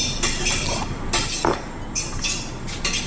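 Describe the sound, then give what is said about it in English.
A metal fork clinks and scrapes as it mixes oil into pesto, making a quick run of bright taps and rasping strokes at an uneven pace. “I don't have a teaspoon, so I'm going to use a fork. There you go. Just mixing the oil around.”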